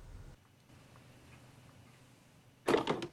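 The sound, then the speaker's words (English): A door is shut, ending a quiet stretch with one loud, sharp knock followed by a brief rattling tail. “He closes the door, looking shocked and confused.”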